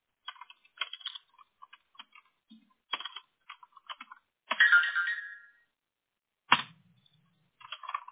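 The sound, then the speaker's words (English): Personal phone ringing with bursts of short electronic tones, broken by gaps, plus one longer warbling tone in the middle. “Oh, I thought that's what your noise was, is that you got my link. Oh, let me look. Maybe. That was actually my personal phone”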